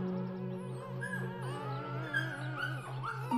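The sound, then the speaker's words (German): A puppy from a young litter whimpers and squeaks, thin high whines that bend up and down in pitch, some short and yipping, over a steady low hum. No one speaks. “Eins der Babys buhlt besonders wild um deine Aufmerksamkeit. Winselnd, jaulend und quiekend springt er immer wieder an”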